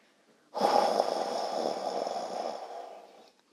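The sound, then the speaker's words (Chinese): A long, deep breath taken slowly and steadily, guided as part of a children's relaxation meditation. It is one continuous airy whoosh lasting about three seconds, heard alone with no talk. “我们深深的吸气，再慢慢的吐气，”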